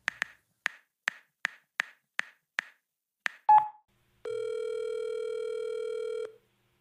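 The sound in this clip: A telephone being dialed to place a call: a string of sharp, evenly spaced key clicks, a heavier clunk, then a steady, loud, buzzing line tone that holds for about two seconds before cutting off, with no voices.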